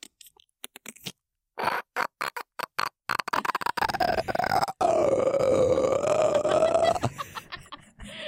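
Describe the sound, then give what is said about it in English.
A person's voice imitates a clicker zombie's clicking: a few sharp, separate clicks, then rapid throaty clicking that runs into a long, strained, croaking rasp whose pitch wavers before it stops. “Am I making the clicker noise or the pterodactyl noise? It just do your best impression of a clicker.”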